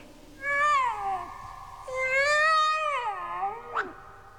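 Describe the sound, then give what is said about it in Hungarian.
A tomcat meows: two long, drawn-out, wavering calls, the second longer with a falling end, then a brief sharp cry. The meows are clear and fairly loud against a quiet background. “Kedves kandúr, merre van a gazdád?”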